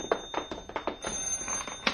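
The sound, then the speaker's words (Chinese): A telephone bell rings in a rapid, trilling pattern of many short, bright pulses, fairly quiet, with a thin steady high tone sustained beneath the ringing and no voices. “啊、有电话 是我去听。”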